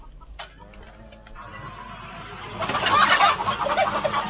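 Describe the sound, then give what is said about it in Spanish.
Chickens clucking inside an old-style chicken house with open windows: a crowd of overlapping clucks and squawks that starts quieter and grows louder and denser in the second half. “A diferencia de Vince, Carol sigue usando el estilo antiguo de gallineros con ventanas abiertas.”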